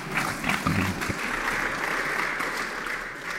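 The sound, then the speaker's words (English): Audience applause welcoming the Director General of CERN as a guest on a show: a steady, dense wash of clapping that holds at an even loudness for the whole stretch. “please give a big hand to Fabiola. Welcome to the show.”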